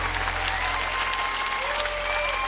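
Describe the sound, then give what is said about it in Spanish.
Applause at a Christian worship gathering, offered in praise to God: a steady, dense wash of clapping that holds at an even loudness throughout, with no break and no single clap standing out. “Oh, dale al Señor un aplauso como Él merece.”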